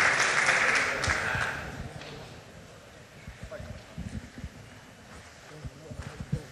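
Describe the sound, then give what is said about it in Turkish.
Audience applause, loud and dense at first, fades out within about two seconds, and people then talk over scattered light knocks. “Buzdan olabildiğince kuvvetli bir alkış rica edebilir miyiz?”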